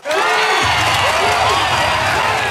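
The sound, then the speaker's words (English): Crowd applause and cheering, given as a mock round of applause for city councillors' pay rise, loud and unbroken, with clapping blended into shouts and whoops throughout. “Congratulations. Round of applause”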